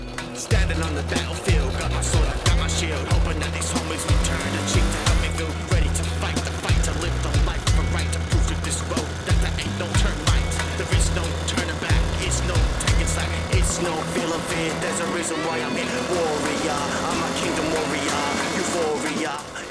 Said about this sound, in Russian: Они сидят в коляске мотоцикла.